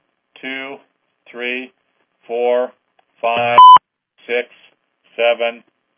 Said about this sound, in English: Okay, I heard a caller there, a beep.